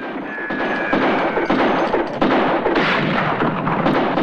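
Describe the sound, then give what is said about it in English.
Gunfire as men shoot after two fleeing riders, with spooked horses bolting nearby: loud, dense, noisy bursts with a few heavier thumps standing out throughout. “Harlan and his surviving men fire after Joe and Helen, in confusion, as they witness their own horses galloping away too, frightened by the gunfire.”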